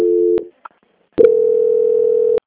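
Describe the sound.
Telephone line tones play during a call transfer: a brief steady mid-pitched tone, a short pause with a faint blip, then a longer unbroken tone lasting about a second. No one talks.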